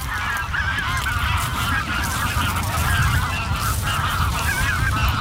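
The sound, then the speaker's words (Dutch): Geese honk as a flock of birds flies off over the Meuse valley landscape park, with many overlapping nasal honks forming a loud, continuous chorus throughout. “We horen de vogels wegvliegen.”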